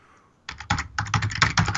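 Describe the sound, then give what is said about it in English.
Aggressive typing on a computer keyboard: after a short quiet moment, many rapid, forceful keystrokes clatter in dense, uneven bursts, loud and alone with no voices. “I'll just stop typing, so I apologize, guests. I was typing quite aggressively for record time.”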